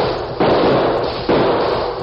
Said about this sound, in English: Guns blazed at him from both sides of the street.